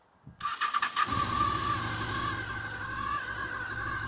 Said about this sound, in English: This is what a bike sounds like if it starts.